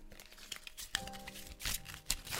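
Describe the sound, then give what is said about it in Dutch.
Playing cards are shuffled by hand, giving a faint, papery riffling and rustling with a few brief louder bursts. “ik heb hier een paar kaarten. die kan ik schudden.”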